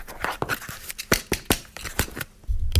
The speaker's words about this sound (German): Das ist das Paket. So, so klingt ein Paket. Das ist ein Paket.